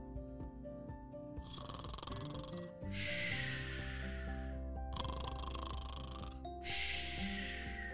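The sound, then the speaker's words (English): Sleeping parents snore in slow, rasping, breathy waves, several long snores following one another at an even pace over a soft, steady musical background. “That was the sound of her parents sleeping.”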